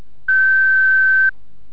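A single steady, mid-high electronic beep lasts about a second on a college switchboard's answering system, signalling the start of recording for a caller's message. Quiet line hiss comes before and after it.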